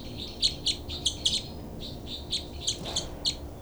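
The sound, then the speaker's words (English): Two birds call in a series of short, high, sharp chirps, coming in quick clusters with brief gaps. A faint low background hum continues beneath them, and no voices are heard. “Both birds here.”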